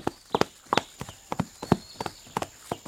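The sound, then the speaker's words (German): Hooves of a ridden horse clip-clop as it approaches, many sharp hollow hoof strikes in a brisk, slightly uneven walking rhythm, heard alone. “sattelt Maharaja und reitet Bibi und Tina entgegen.”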